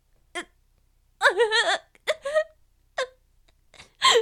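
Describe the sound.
A woman crying with her face in her hands, in short bursts of gasping, hiccuping sobs and a quavering, wailing moan, broken by brief silent pauses.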